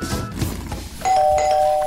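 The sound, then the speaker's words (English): A doorbell rings halfway through with a bright, sustained electronic chime that stays loud to the end, following a stretch of low, noisy background sound. “That's the doorbell again. Gosh, that's annoying.”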